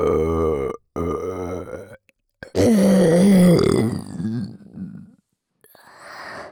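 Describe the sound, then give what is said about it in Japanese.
A long, loud, deep and gravelly burp from a person, drawn out over a couple of seconds, set among shorter voiced groans and breathy sounds with brief silences between them. “正面からもエロゲップ。”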